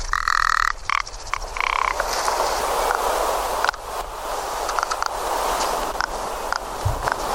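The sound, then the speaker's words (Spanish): Rock ptarmigan calls in the Larra massif, sounding more like a frog or insect than a bird: loud, rasping, croaking bursts, densest near the start, followed by softer rattling calls and rustling. “nos puede recordar más a un anfibio, a un insecto, más que a una especie de ave. Y bueno, comentar que tienen varias vocalizaciones, ¿no? Las perdices nivales, además, o los lagópodos.”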